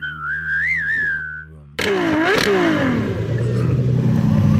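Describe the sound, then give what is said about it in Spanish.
A Ferrari sports car engine revs loudly, its roar bursting in abruptly after a wavering whistle-like tone, then briefly climbing in pitch before settling into a steady, heavy drone. “Voy a echar gasolina aquí, carajo. Aquí traigo mi Ferrari.”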